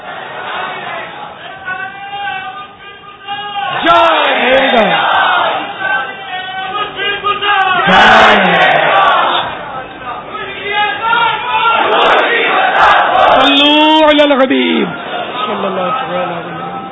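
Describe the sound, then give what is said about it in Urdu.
A crowd at a Dawat-e-Islami religious gathering chants a slogan, many voices in unison. The loud phrases repeat and rise and fall in rhythmic waves, with some background chatter. “اچھا وہ دعوت اسلامی کا ایک نعرہ ہے, متبادل نعرہ ہے سمجھ جائیں, فیضان مشکل کشا.”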